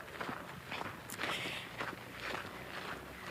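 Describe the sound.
Footsteps of people walking among tractors on a farm, a steady rhythm of soft treads over a constant hiss of background noise, fairly faint with no talk.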